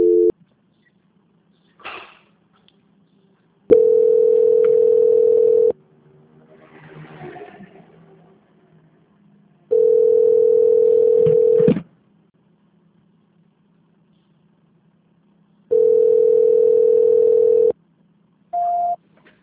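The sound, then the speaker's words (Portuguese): Telephone ringback tone of an unanswered call: three long, steady, mid-pitched tones of about two seconds each, separated by long silent gaps, with the short start of a fourth at the end and faint rustling between. “Elas não estão atendendo. Eu acho que está em outra ligação.”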